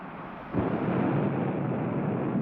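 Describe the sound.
A rocket blast-off: a deep, broad roar bursts in after about half a second of quieter rumble and then holds at a steady, loud level to the end.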